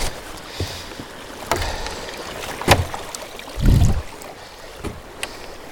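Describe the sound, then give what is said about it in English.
Paddling a small boat away from the shore: a few scattered splashes and watery knocks from paddle strokes, with one heavier, lower surge of water partway through, over a soft background wash. “And paddling away from the shore now, that's lovely.”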